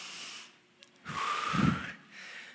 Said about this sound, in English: How do I get rid of all this chest congestion? And it was like, man, you just get in a hot shower and let the steam, like, you got to breathe it in. And so I kept doing it every day. I'd be in there and I'd just be like,